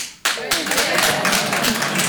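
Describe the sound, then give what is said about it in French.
Applause from a live show audience in a venue: dense, continuous clapping that bursts in sharply after a brief quiet moment and holds at a steady level, with voices in the crowd mixed in. “alors par applaudissement faites du bruit”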